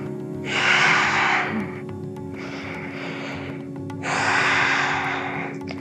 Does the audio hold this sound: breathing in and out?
yes